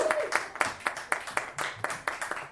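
An audience claps and applauds as a volunteer is welcomed up, many sharp, evenly spaced claps in a steady rhythm.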